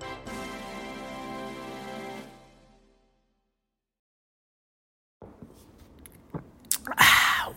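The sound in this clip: Chewing and sipping as someone eats and drinks a chocolate egg cream: a steady harmonic tone fades into silence, then soft wet clicks and crunchy bites follow, ending in a louder burst.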